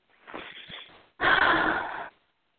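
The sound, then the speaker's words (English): Two slow, airy inhalations during a guided spiritual energy session. The first is softer and the second is a fuller, louder deep breath in, each a steady hiss of air with no voice over it. “then you'll take a deep breath in and allow us to come in.”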